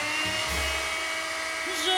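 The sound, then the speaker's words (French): A blender runs, the appliance where fruit and vegetables end up, giving a steady, high, buzzing motor whine with dense harmonics that holds level for about two seconds. “Et où finissent tous ces chers fruits et légumes? Dans un mixeur, bien sûr.”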